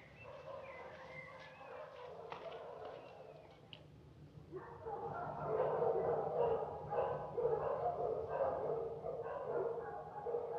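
Guard dogs bark, quiet and sparse at first, then a dense, louder stretch of overlapping barks and yips fills the second half.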